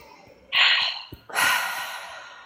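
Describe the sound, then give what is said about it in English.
A deep breath during a tapping exercise: a sharp, airy inhale, a short pause, then a longer exhale that slowly fades, heard alone. “Deep breath.”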